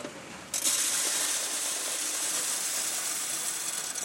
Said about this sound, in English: At a coin mint in Berlin, a machine spits shiny new euro dollars into a sorter.